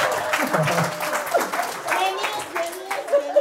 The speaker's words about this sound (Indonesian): Beri aplaus dulu, beri aplaus dulu ya.